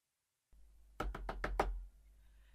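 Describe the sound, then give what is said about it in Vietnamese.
Knocking on a door from the outside: five firm, evenly spaced knocks in quick succession, loud and alone against near silence. “Tiếng đập cửa từ bên ngoài đã vọng tới.”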